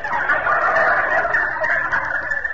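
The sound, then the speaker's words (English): A turkey gobbles in a rapid, warbling rattle that fills the whole stretch. It is loud and steady throughout, with no voices. “What are you doing in here, turkey? I thought I'd put you out on the back porch.”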